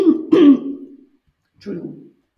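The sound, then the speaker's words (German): A person clears their throat with a few rough, low, gravelly bursts in two groups, a short pause between them. “Ich muss einmal mich räuspern.”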